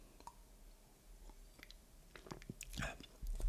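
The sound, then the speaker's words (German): A sip of dry Saale-Unstrut red wine comes through as faint, wet mouth sounds. Scattered soft clicks lead up to a brief slurping sip and swallow, which grow louder toward the end. “ich nehme mal kurz einen Schluck Rotwein nehmen, habe ich nämlich neben mir stehen. Ein schöner Sale Unstrut Rotwein, habe ich heute geschenkt bekommen.”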